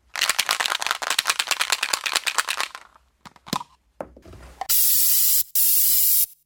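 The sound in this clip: Aerosol spray can used for graffiti on a newly opened building: a long run of rapid rattling as the can is shaken, a few scattered clicks, then two loud, steady hissing bursts of spray.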